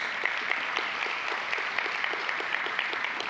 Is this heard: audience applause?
yes